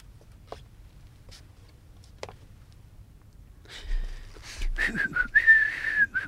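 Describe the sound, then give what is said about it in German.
A person whistles as a warning signal during a safe break-in at a department store: a short whistled phrase near the end, after a quiet stretch with faint scattered clicks and rustles. “Und wenn einer kommt, dann pfeifst du.”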